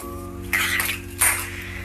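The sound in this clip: Kitchen clatter from someone cooking: two short bursts of clanking cookware over a steady low hum.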